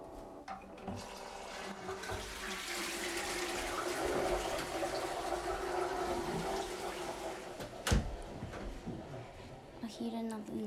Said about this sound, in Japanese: そしたらお昼のウニのウンチを流します。